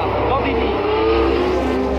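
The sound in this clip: Formula One race cars start the Monaco Grand Prix with a Ferrari in the lead: a loud, continuous engine drone with whining tones that shift in pitch throughout.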